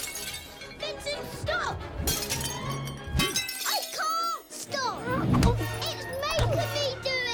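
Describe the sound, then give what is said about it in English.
Crockery being smashed with a cricket bat: several sharp shattering crashes of breaking dishes, mixed with excited children's voices talking and shouting throughout. “Vincent is smashing crockery with the cricket bat.”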